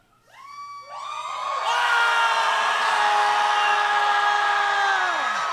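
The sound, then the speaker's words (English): A crowd screams together. A few voices first rise in pitch, then the whole group joins in a loud, sustained roar that holds for several seconds before the voices slide down and fade at the end. “could we all kind of just scream like”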